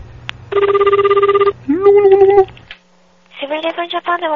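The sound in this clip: A telephone rings on a call dialed to Japan, a loud, steady buzzing ring tone lasting about a second, followed by further warbling tonal sounds on the line.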